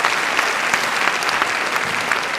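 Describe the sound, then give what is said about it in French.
Loud, dense audience applause, with many hands clapping in a continuous, even roar with no pause. “Non, quand c'est un peu poétique, comme ça, vous applaudissez pas bêtement, vous faites « Oh !»”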